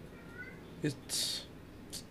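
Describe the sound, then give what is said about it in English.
A pet cat meowing: a brief, faint, thin meow over a low, noisy background, followed by a short hissy burst. “Oh, that's my cat. Don't mind him or her.”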